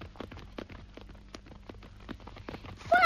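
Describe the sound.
Horse hooves clip-clop in a brisk, even rhythm, many sharp knocking strikes following one another with no talk over them.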